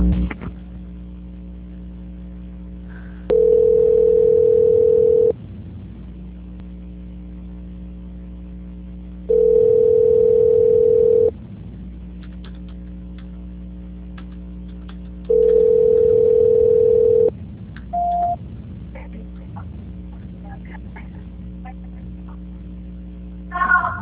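Telephone tones sound during a call transfer: three long, steady beeps of about two seconds each, spaced roughly six seconds apart over a constant low electrical hum, followed by a brief higher blip after the third.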